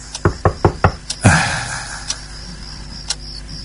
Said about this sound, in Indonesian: Enggak, ini si pintu kamarku yang diketuk.